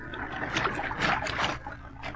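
Water splashes and sloshes as a man goes into the sea off a beach for a swim. The churning is steady and swells louder through the middle before easing, with no talk over it.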